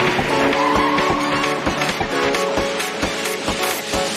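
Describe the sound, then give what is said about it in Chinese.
A race car engine roars inside an electronic music track, the motor's growl blended with steady synth tones and a loud, driving beat that runs throughout. “哇，马达声，把电子音乐赛车元素都融入过来”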